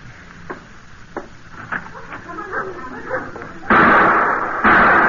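Gunshots from an old trapper's gun in town: a few faint pops and knocks early on, then two sudden loud blasts near the end, each ringing out broadly for a moment.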